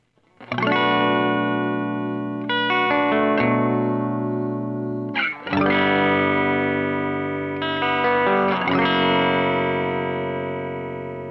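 Electric guitar through a Longamp Roxanne flanger pedal with all knobs set low. A few strummed chords ring out and sustain with a subtle swirling depth, playing alone with no talk.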